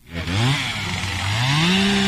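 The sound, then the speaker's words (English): Chainsaw run by a fire crew putting out hot spots after a wildfire, a loud, steady engine snarl whose pitch climbs, dips, then rises again as the throttle is worked, with no talk. “We walked by a fire crew putting out hot spots. One guy had a chainsaw.”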